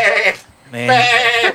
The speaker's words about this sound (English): I pick up one of my goats.